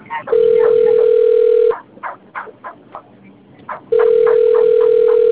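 Ringback tone of an outgoing telephone call that goes unanswered: two long, steady buzzing tones, each over a second long, separated by a quieter gap of irregular low sounds.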